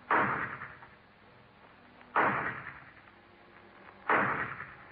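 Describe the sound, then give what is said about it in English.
Gunshots ring out from a low barn-like building at the rear of a property: three sharp, evenly spaced bangs, each followed by a long decaying tail, with no voices. “The shots came from a low barn-like building at the rear of the property”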